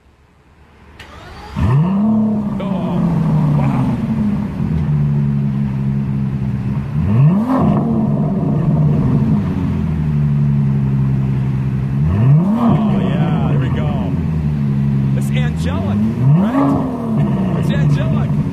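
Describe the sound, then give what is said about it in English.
An Aston Martin DB11 with a 5.7-litre twin-turbocharged 600-horsepower engine revs hard four times in a row. Each rev rises in pitch, then settles into a loud, rumbling, continuous drone, and a voice briefly exclaims over it. “the Aston Martin DB11, 5.7 twin turbocharged, 600 horsepower, brings you to 7,000 RPMs, and it sounds like this.”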